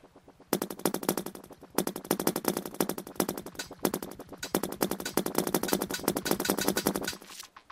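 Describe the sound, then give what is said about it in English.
Rapid gunfire from shooting in a Space Invaders-style video game: a dense, loud stream of rattling shots. It breaks briefly twice, then resumes before stopping abruptly near the end. “Just like any later Space Invaders games, your bullets actually need some time to get to the part of the screen that you're shooting at.”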